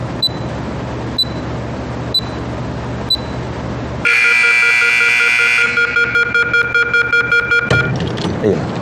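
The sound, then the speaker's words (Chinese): An electronic timer beeping after a door is locked: four short, high beeps about a second apart, then a loud sustained electronic tone, followed by a steady run of rapid beeps. “就这个滴滴滴这个声能不能给它关了？特像 CS 里边匪徒下包那声。”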